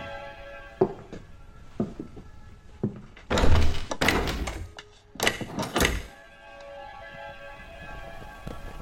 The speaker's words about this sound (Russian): Дергает закрытую дверь.